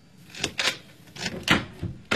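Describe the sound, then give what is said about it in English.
A door being opened, heard as several sharp clicks and knocks of a handle and latch, spaced unevenly and fairly quiet. “please open the door”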